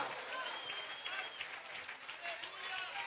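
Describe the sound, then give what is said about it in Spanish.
Congregation applause during a church service praising God, a faint, continuous patter of clapping with a voice and some thin tonal sounds running over it. “Vamos, aplauda al Rey de Gloria”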